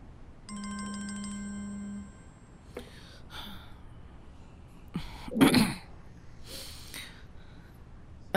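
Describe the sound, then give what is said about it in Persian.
A phone ringing with an incoming call: a short electronic ringtone with a steady buzzing tone, lasting about a second and a half, followed by several bursts of rustling and breathy noise. “یکی داره به زنگ میزنه.”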